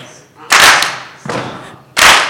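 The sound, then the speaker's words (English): A group stomps its feet and claps its hands in rhythm during a body-percussion exercise. Three loud, sharp, percussive hits land at a steady pulse, each fading quickly. “So we're going to stomp on one, clap on two, quiet on three, clap on four. We got it? Okay, let's try it again. Stomp, clap.”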